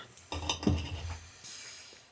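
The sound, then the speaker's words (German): Cutlery cutting into a fish roulade served with dill sauce: a few soft clinks and scrapes of knife and fork against a plate, brief and fairly quiet. “So, also schneiden wir mal die Roulade an.”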